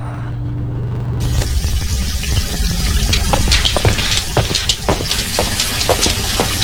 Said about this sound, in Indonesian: Kok seperti ada suara air? Iya, Pak, benar. Itu humpung air dari PDAM-nya mengalir.